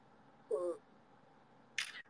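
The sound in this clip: Camera shutter sounds from a phone or camera taking a photo: two brief, quiet clicks separated by a pause of over a second, the first carrying a faint tonal edge.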